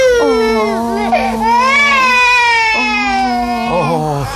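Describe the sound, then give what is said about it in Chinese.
A hundred-day-old baby boy cries loudly and without a break, his high, wavering wails bending up and down in pitch throughout. “怎么又哭了？”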